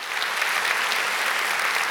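Applause from a church audience welcoming its campuses and online community: dense, steady clapping that stays loud and even for two seconds without a break.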